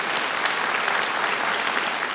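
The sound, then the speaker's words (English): Congregation applause at a church service: a steady, dense patter of many hands clapping at moderate level, continuous for about two seconds with no voices standing out. “Yeah, we should give a round of applause for that.”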